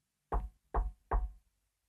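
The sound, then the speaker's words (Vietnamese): Three firm knocks on a door from outside, evenly spaced and loud, with nothing else heard between them. “Nhưng nó lại không được kéo dài thêm bởi cái tiếng gõ cửa vọng lại từ bên ngoài làm cho Huệ đã giật mình tỉnh giấc.”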